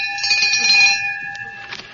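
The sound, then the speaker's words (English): A door bell pulled at a duchess's country estate rings with a bright, sustained metallic tone for about a second, then fades into fainter, uneven ringing. “Don't pull that bell so hard.”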